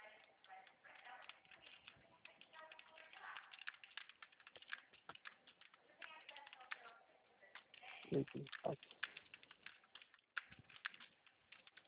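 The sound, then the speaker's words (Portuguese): Light typing on a computer keyboard while a CPF number and password are entered: faint, irregular key clicks under quiet voices. “Você já digitou CPF e a senha tudo certinho?”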